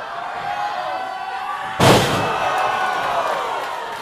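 A wrestling body slam onto the ring mat lands as one sharp, loud, booming thud, rising out of steady crowd noise that carries on afterward.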